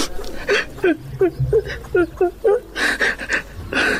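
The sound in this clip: A woman suddenly bursting into tears, with many short, gasping sobs in a quick uneven rhythm, then longer, higher wailing cries toward the end.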